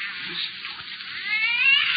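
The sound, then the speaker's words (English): A cat meows in a drawn-out, wavering wail that grows louder and more tonal toward the end, sounding thin and muffled, with no one talking. “It is a cat. Just a cat. But I'll make it be quiet for the whole way.”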